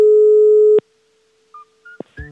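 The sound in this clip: Telephone line tone as a call is placed: a loud, steady tone that cuts off abruptly, followed by a near-silent gap and then a few brief, higher tones and clicks on the line.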